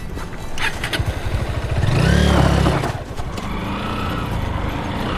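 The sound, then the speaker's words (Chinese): A loud motorcycle engine rumbles steadily, swells into a rising rev partway through, then settles back to a continuous, throaty idle. “你摩托车声音太大了，马会惊着的。”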